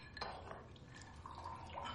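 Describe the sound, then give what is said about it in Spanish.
Whisky is poured into a glass as a father serves himself a drink, a faint trickle of liquid mixed with soft glassy clinks and small knocks, quiet and without talk. “Su padre se levanta y se dirige a servirse un whisky.”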